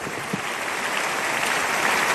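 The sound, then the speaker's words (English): A church audience claps in praise during a testimony service, a dense, steady wash of many hands that holds at an even, fairly loud level with no break. “Give the Lord a big, big clap of praise.”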